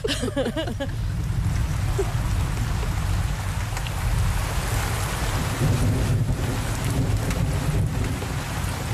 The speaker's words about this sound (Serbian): Jori se, grmi. Da, da. I pada kiša. Pada.